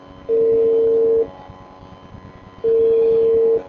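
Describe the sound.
Telephone tone sounding after a call is dialed: two steady, low-pitched one-second tones separated by a pause, loud over a soft background hum.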